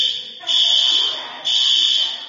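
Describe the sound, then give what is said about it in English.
An electronic alarm beeps: two long, shrill, steady tones at a high pitch, each sustained about a second, with a brief quieter dip between them. “Or talk in between beeps.”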